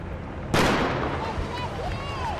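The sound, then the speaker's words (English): A starting gun fires to begin a 12-kilometer road race in Spokane: one sharp, loud bang whose noise lingers and slowly fades, with crowd voices in the background. “The 78-year-old runner wore the same orange shirt he'd worn in Boston as he waited for the starting gun in Spokane.”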